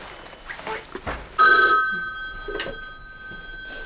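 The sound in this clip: A telephone at a retirement home's switchboard rings with an incoming call. A loud bell-like ring starts abruptly and sustains, slowly fading, with a second short ring near the end.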